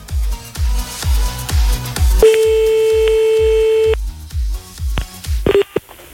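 Telephone dialing: a rapid, regular run of short dialing tones, then a long steady tone and a few brief tones at the end.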